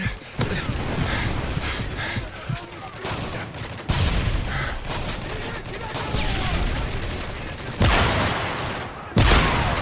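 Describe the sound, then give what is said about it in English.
Video game gunfire: volleys of shots with mechanical clatter, broken by a few sharp, loud bursts that stand out above the steady noise. “By the way, I shot the guy in the nose cavity. Five rounds.”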